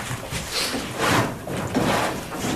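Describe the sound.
A wardrobe is opened and closed while a room is searched, giving a few soft sliding, scraping bursts that swell and fade with faint rustling between them.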